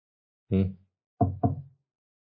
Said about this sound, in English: So put on those thinking hats, reflection hats, and do knock knock right here.